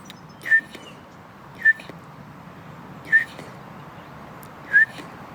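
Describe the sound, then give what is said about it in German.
A person imitates a bullfinch call by whistling during a walk in a park. Four short, soft, piping whistles come at even intervals over a faint outdoor background. “Das ist der Dompfaff. Vogel, den wir dieses Jahr viel gesehen haben.”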